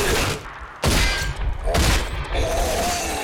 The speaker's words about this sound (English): I almost shot you in the face.